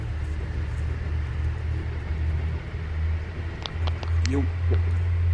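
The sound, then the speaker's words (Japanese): Road traffic rumbles outside as cars pass noisily, a steady low drone that swells and eases without pause through the whole stretch. “車がうるさいだけですから”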